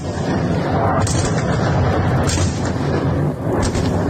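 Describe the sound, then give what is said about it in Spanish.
Explosions from a massive missile attack on Kyiv: a loud, continuous, rumbling barrage with a few sharper bursts standing out above the dense roar, and no voices. “Sonido de la ofensiva sobre Kiev, que las autoridades han definido como masiva.”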